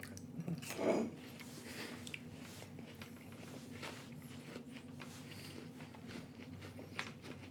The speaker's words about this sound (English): I get to enjoy a delicious apple slice in Nutella. Man, that's a big slice.